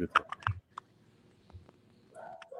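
Keys clicking on a computer keyboard as someone types an email, a short run of quick, sharp taps followed by near quiet.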